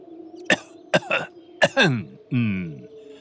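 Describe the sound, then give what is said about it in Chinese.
A deep-voiced man coughs several short, sharp times, then lets out a longer voiced clearing of the throat, over a steady low hum. “一个浑厚的声音咳了几声”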